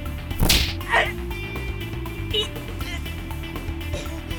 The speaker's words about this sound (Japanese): ある店の前で、少年がその店の人に殴る蹴るの暴行を受けています。